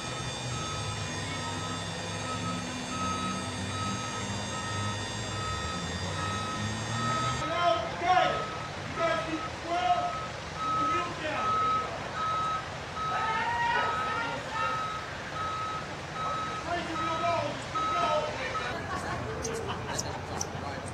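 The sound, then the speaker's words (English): Reversing beeps sound as a truck backs a trailer toward a curb: a steady, evenly spaced high beep begins partway through and repeats over a low engine rumble, with people talking. “square it up and get it close to the curb, pick it up, center the trailer up, back them on.”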